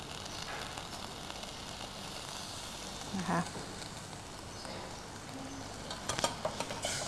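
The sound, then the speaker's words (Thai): Sizzling and stirring as a paste is stir-fried in rich coconut cream until reddish oil separates, a steady bright frying hiss with a few scraping knocks from stirring partway through and near the end. “เราจะผัดกับหัวกะทิเพื่อให้น้ำมันมันออกมาเป็นสีแดงๆหน่อยนึงนะคะ”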